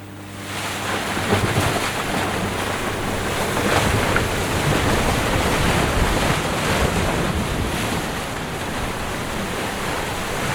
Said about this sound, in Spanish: Estamos escuchando la lluvia.